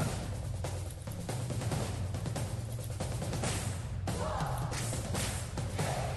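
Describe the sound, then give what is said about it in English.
Explosions as a building blows apart with fire added: a dense, continuous roar of rumbling blasts and thuds that stays loud throughout, with a few sharper bursts breaking through. “And as the building starts to explode, I'm adding more fire.”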